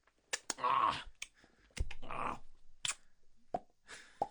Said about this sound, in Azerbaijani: Yemək olsun, burada yiyin, bax, əllərlə. Belə barmaqlarımı somururam, belə.